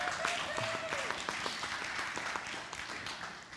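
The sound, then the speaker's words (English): An audience applauds a woman thanked for helping at the soundboard, with steady, even clapping from many hands. The applause is moderately faint and continues throughout, with a voice briefly heard at the start. “Would you give her a hand?”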